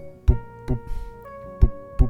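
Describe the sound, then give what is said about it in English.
A heartbeat thumps as two low double beats, each a pair of deep pulses, over a steady tonal hum. “They listen to his heartbeat and it's like,”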